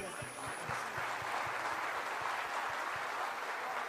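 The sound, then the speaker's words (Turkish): An audience applauds at a religious gathering: a fairly faint, steady wash of clapping with regular low thumps recurring throughout. “Alkışlıyoruz bu güzel meclisi.”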